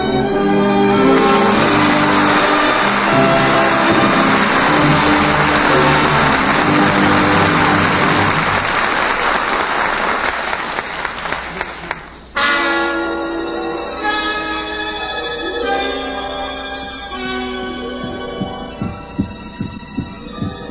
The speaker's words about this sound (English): Hear that sound? That's the beating of a human heart. Yes, a human heart, the pulsating mechanism that pumps steadily throughout the lifetime of each one of us.